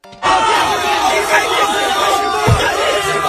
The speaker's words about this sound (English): Okay, it sounds like complete chaos, but what they're saying is, kiss your mom, kiss your mom!